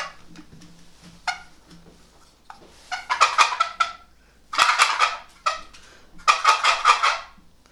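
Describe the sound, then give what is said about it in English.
A turkey gobbles in three loud, rapid, rattling bursts, each lasting under a second, with faint clicks and quiet gaps between them. “Sound like a gobbler?”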